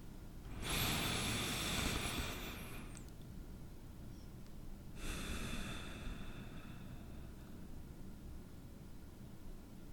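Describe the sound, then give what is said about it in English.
Slow, deep breathing during a guided meditation: two long, airy, faint breaths separated by a quiet pause over a soft hiss. “Let's breathe together and find that flow.”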